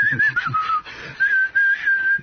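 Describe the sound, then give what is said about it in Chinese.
A person whistles a familiar tune outside a city wall, a clear, bright melody in short wavering phrases that rise and dip in pitch, heard alone with brief pauses between phrases. “开始吹口哨了。好熟悉的曲调哦。”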